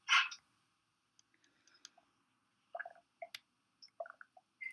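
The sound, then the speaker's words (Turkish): Water being drunk: after one louder opening burst, a string of faint, short wet clicks and swallowing sounds follows in separate bursts, with quiet gaps between them. “Su içeceğim.”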